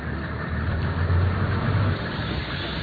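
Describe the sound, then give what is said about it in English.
Engine of an open-sided four-wheel drive safari vehicle at Chobe National Park in Botswana, a steady low rumble wrapped in broad noise that swells briefly in the middle and then eases back. “Imagine climbing into an open-sided, four-wheel drive vehicle early in the morning.”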